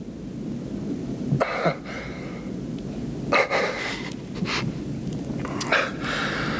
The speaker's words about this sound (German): Es war nur ein Hund. Er kam aus der Ladentür.